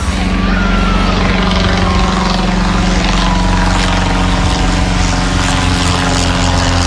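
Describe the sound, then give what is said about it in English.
A Wright B Flyer propeller aircraft engine runs in a continuous, loud, rough drone with a steady low hum and no breaks. “That's the sound of the Right B Flyer.”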